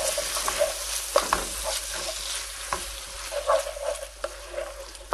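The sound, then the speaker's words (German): Food sizzles as it fries in oil in a pan. A steady hiss is broken by scraping stirring strokes and occasional louder crackles, with no talk. “Rutschelt richtig, das war ja jetzt nur in Öl angeschwitzt alles, angebraten deswegen brötschelt das jetzt richtig.”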